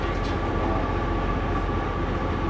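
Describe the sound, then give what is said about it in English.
Steady low rumble of a train standing at a station platform before departure on a service to London King's Cross. It forms a continuous, even drone with no distinct individual events. “please see a member of staff on the platform before this train departs. This is the 1634 first whole train service to London King's Cross.”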